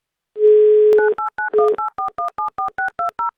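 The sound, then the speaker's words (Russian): Telephone dialing tones as a radio host calls a listener: a steady tone first, then a quick run of many short, evenly spaced two-note key beeps, clean and loud with no talk. “Звоним в Краснодарский край.”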